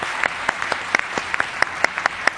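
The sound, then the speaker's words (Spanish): Applause from a large crowd of some ten to twelve thousand people: crisp claps land in a regular, fairly quick rhythm over a softer background of scattered clapping, with a steady beat through the whole stretch. “12.000 personas que desde primera hora están aquí con nosotros, y a los que les voy a dar un aplauso yo a ustedes mismos.”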